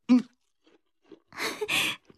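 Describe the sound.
Someone bites into a sweet fruit and chews it, making a burst of wet crunching after a short voice and a near-silent pause.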